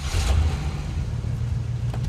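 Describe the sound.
A truck engine drives off with a steady, loud, low rumble that holds evenly for the whole stretch, without clear gear changes or breaks.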